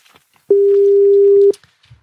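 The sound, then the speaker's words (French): A telephone ringing tone plays after dialing: one steady, mid-pitched beep lasting about a second, with near silence before and after. “Et ça répond dès la première sonnerie.”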